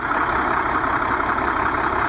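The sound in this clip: A bus engine runs smoothly and steadily, giving a continuous, even rumble with no change in loudness or pitch throughout, heard alone.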